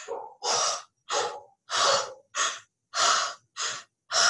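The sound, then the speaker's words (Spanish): Deep breathing in and out during a guided abdominal breathing exercise: a rhythmic series of eight loud, airy breaths with short silent pauses between them. The first breath is softer, and the later ones are strong and forceful. “Llena tu abdomen de aire. Inhala desde tu centro de poder. Inhala, llena y exhala.”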